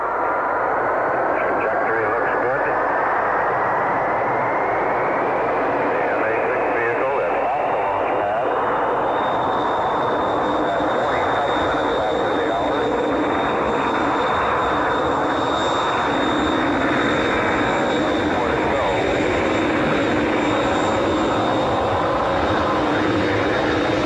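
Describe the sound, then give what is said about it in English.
Mercury-Atlas MA-6 rocket liftoff: a loud, continuous, broad engine roar that holds steady throughout, with a thin tone climbing slowly in pitch over the first several seconds. “ignition. Liftoff. The MA-6 vehicle has lifted up. The MA-6 vehicle has lifted up.”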